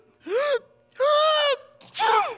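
Repeated human sneezing: three loud, voiced bursts with a wavering, moaning pitch, the last starting with a sharp noisy burst, with short silences between them and no talk.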